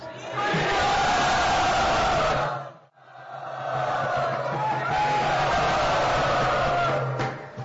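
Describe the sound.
A crowd at a Vaishnava religious gathering cheers and shouts enthusiastically to welcome special guests. Two long, loud bursts of massed voices are separated by a brief lull.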